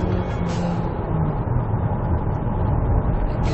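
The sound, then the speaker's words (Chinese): A 2016 Ford Explorer with a 2.3T engine and two-wheel drive accelerates through the mid-range, producing a dense, steady roar of engine and road noise with no clear rise in pitch. “我们刚才说的是起步啊，来看看这个中途加速，哇！”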